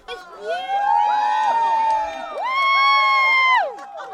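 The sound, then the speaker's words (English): Crowd cheering and whooping as the sky darkens and the temperature drops during an eclipse; loud, sustained voices rise in two long swells with sweeping high-pitched shouts. “the crowds here didn't seem to care, and they cheered as the temperature dropped and the skies darkened.”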